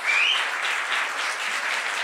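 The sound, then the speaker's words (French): Standing ovation from an audience at the close of a conversation, a dense, steady roar of many clapping hands that holds at a strong, even level throughout. “merci de cette standing ovation euh, impromptue et très agréable”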